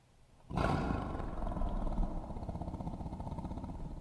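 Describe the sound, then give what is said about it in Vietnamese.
A tiger gives one deep, loud roar that bursts in abruptly and holds for a few seconds before slowly rumbling down and fading. “Con hổ thấy vậy gầm lên một tiếng rồi chồm vào hướng của Thái Hậu.”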